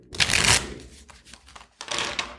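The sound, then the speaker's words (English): Tarot cards being shuffled in two quick papery bursts of rapid flicking, the first louder and longer, with a short quiet gap between them. “Well, let's answer the question with the tarot cards.”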